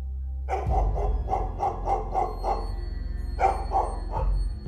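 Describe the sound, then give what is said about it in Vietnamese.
A dog barking loudly at night, with a quick run of repeated barks, a short pause and then a few more, over a low steady hum. “Loáng thoáng nghe có tiếng một con chó nó sủa ông ổng.”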